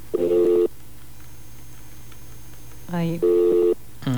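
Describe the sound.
Telephone call-waiting tones on a phone line during a call: two short, buzzy tonal bursts a few seconds apart over a steady low line hum, with brief snippets of voice.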